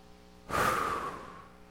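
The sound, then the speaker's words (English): People taking a deep breath together: a sudden breathy rush of air that starts abruptly, swells briefly, then slowly fades over about a second. “The first thing I'm going to ask you to do is to take a deep breath.”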